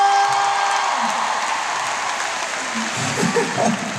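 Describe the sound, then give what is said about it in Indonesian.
Audience applause at a pop concert: dense, steady clapping from a large crowd that carries on without a break, with crowd noise mixed in. “Tepuk tangan buat kalian semua”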